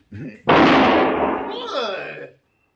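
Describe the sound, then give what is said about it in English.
A single loud gunshot fires during a Western standoff, shooting the gun out of a man's hand. A short lead-in precedes the sharp blast, and its noisy tail rings on for nearly two seconds before cutting off. “He's good with the gun. Very good, senor. You just shot the gun from my hand.”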